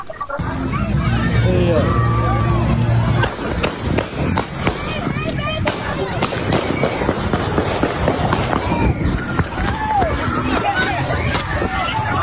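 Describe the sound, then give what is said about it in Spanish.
Amateur video audio of people running amid gunshots, with many sharp cracking bangs scattered through hurried movement and a constant babble of agitated crowd voices. “Estáis viendo las imágenes de un vídeo aficionado que corre y que va grabando mientras escuchan los sonidos de los disparos.”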